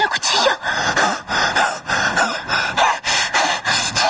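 A man pants heavily over a woman during a knife assault scene in a 1993 Spanish black comedy film. Loud, rapid breaths repeat in a steady rhythm with no talk.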